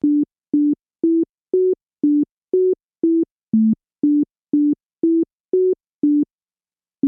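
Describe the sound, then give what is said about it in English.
A simplified tone melody with every note in the same octave: a steady, evenly paced series of about a dozen short, pure, low-pitched beeps, each note shifting only slightly up or down from the last. “listen to a simplified version of the same sequence. In this case, all the notes are in the same octave. Same range.”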